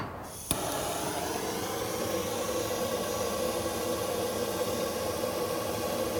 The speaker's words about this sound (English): I will fill the tube up and go ahead and light the end of it with a torch.